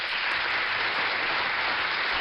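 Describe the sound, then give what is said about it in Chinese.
Applause after praise for a child's good answer during a parenting talk: steady, dense clapping that fills the whole clip at an even level, with no voices on top. “真的要再给你送一个掌声啊。”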